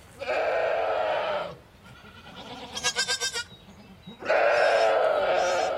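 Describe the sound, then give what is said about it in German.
Dairy goats bleat on a farm before milking: two long, loud, nasal calls with a shorter quavering bleat between them. “Bald müssen die Ziegen gemolken werden.”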